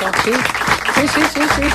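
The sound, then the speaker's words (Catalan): Applause from an audience, a brief burst of clapping noise with voices sounding over it. “Un aplaudiment per Antònia Carré.”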